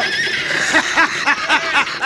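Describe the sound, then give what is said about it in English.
Horses neigh while rocks are thrown at them. A loud, shrill series of quavering whinnies repeats in quick succession. “Cisco, grab up some rocks, Holt. Fire them at them horses.”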